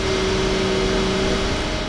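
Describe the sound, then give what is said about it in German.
A motor drones steadily as it slowly pulls a 15 cm thick copper cable, sheathed in black plastic, into an excavated trench. The hum stays constant with a steady tonal note and no voices throughout. “Ganz langsam zieht der Motor das 15 cm dicke, mit schwarzem Kunststoff ummantelte Kupferkabel in den ausgeschachteten Graben in Heslingen.”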